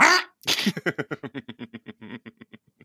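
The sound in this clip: A human voice imitates a duck's quack after a short breathy burst, with a rapid run of many short nasal pulses that slowly get quieter and more spaced out.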